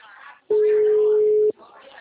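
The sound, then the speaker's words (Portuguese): A telephone call going unanswered, with one steady mid-pitched ringback tone lasting about a second, set between stretches of quiet talk. “Ligou mesmo, nem atende.”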